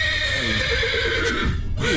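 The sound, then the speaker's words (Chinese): A horse whinnies over dense, steady background noise. It is a stressed horse that bites, with broken horseshoes, kept in a vehicle compartment. “来，我来看看这个咬人的马。”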